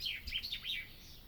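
A bird chirping in cool outdoor air, a run of several quick, high, bright whistled notes sweeping up and down over a faint low rumble.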